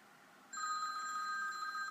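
A telephone rings with a steady, sustained electronic tone that starts partway in and holds at an even level, fairly faint but clear and alone.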